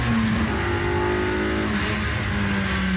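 A Super 7 sports car's engine revs hard in a loud, continuous, buzzing drone whose note wavers and shifts in pitch, with no voices over it.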